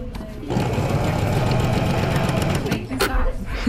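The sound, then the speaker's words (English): Sewing machine stitching fabric in reverse, the machine feeding the fabric itself: a steady, fast mechanical whir starts after a short quiet moment and runs evenly, with a slight dip near the end. “So to reverse, you're going to push down the reverse button. The machine will move the fabric itself.”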